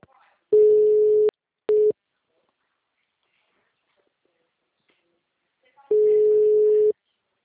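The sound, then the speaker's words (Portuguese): A telephone busy tone after a dropped call: three steady, single-pitched electronic beeps, the first and last about a second long and the middle one much shorter, separated by silence. “a ligação caiu”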